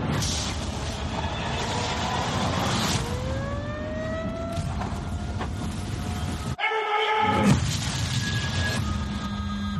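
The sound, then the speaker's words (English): Movie trailer audio for The Ice Road: a dense, loud rumbling roar with rising tonal sweeps that cuts out abruptly, then returns with blaring sustained tones. “All right, let's play this Ice Road trailer.”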